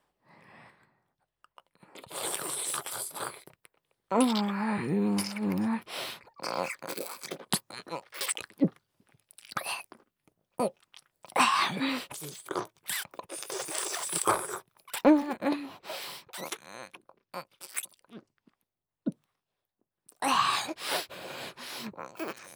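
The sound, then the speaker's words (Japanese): Close-up eating and gulping right beside the ear: crunchy bites, wet chewing and swallows come in irregular bursts with short silent pauses between them. “ちょうど耳元ですし、私のごっくんの音存分に楽しんでくださいね。ではいただきます。”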